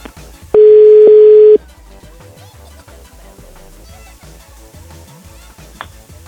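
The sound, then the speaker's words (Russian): A steady, single-pitch telephone tone holds loudly for about a second during a phone call being placed, then gives way to quieter, busier background sound. “Дайте мне набрать номер”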